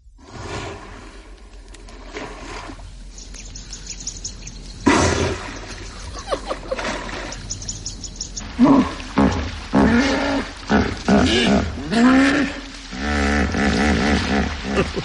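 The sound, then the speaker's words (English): A herd of hippos in a pool snorts and grunts, with loud, deep, rumbling bursts overlapping and sloshing, watery blasts between them, continuing throughout. “There's a complete herd here in a pool, and there's snorting and grunting and all sorts of things going on.”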